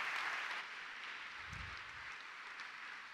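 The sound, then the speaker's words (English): Audience applause welcoming Ben Quilty at a Newcastle panel event, a steady, fairly faint wash of clapping lasting throughout without a break. “Please put your hands together for Ben Quilty.”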